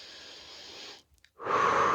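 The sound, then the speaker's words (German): Deep breathing as a relaxation exercise: a long, steady airy breath, a brief quiet pause, then a second, louder and fuller breath that carries on to the end, with no talking. “Ja, atme mal tief durch.”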